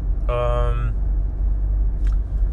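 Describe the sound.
Steady low rumble of a car driving, heard from inside the vehicle, continuous and even throughout the short stretch.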